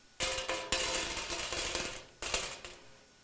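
Coins drop into a temple offering box, producing a long cascade of bright metallic clinks and jingles. A shorter second burst of clattering coins follows after a brief pause.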